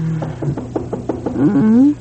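Rapid run of knocks at a front door late in the evening, evenly spaced and moderately loud, with a brief tonal sound trailing after them.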